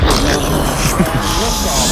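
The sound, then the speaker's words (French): A voice imitates a rocket launching with a loud, continuous rushing roar that holds steady for about two seconds. “Vous faites super bien la fusée.”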